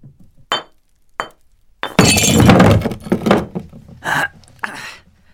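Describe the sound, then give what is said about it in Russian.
A hammer smashes pieces of plaster taken from shelves. A couple of sharp separate blows lead into a loud, sustained crumbling crash, followed by a few more cracking impacts as the fragments break apart. “аккуратно достал куски гипса с полок, а потом аккуратно треснул по ним молотком”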